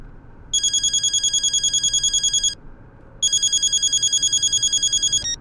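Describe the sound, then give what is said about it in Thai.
An outgoing phone call rings with two bursts of rapid, trilling electronic ringing, each lasting about two seconds and separated by a brief pause, over a constant background hiss. “เอางี้เพื่อไม่ประมาทเดี๋ยวกูจะโทรให้เอฮั่นมาจัดการแล้วกัน”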